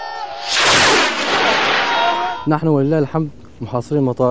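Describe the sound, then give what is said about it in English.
A homemade short-range rocket being fired: a loud roaring, hissing rush lasting about two seconds, followed by several short bursts of shouting voices. “Short on ammunition and weapons, they say most of these short-range rockets are homemade.”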